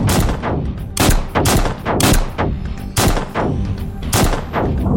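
Gunfire aimed at an open doorway: loud, sharp shots follow one another in a steady, rapid rhythm of about two per second, each with a short decaying tail, and no voices.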